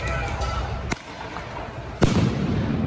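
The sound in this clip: Police impact munitions and flashbangs go off at a street protest in Portland. Two sharp, loud bangs, about a second apart, cut through constant rumbling street noise.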